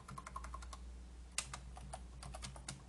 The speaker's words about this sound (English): Um, and let's type in Ricky Gervais here.